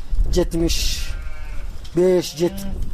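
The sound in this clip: Small livestock bleating from a flock of over seventy head: two loud bursts of wavering, nasal bleats, each holding a couple of calls, separated by a stretch of hissing background noise.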